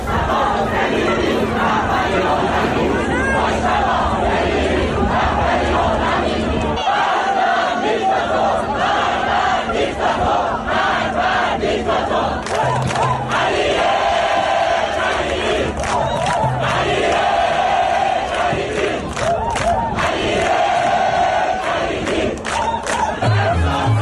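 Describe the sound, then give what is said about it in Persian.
Spectators in Dubai chant slogans after a world championship match. A loud, continuous roar of massed voices holds steady throughout. “تماشاگران هم بعد از مسابقه به جای شعارهای ورزشی در دبی اینجوری شعار دادن.”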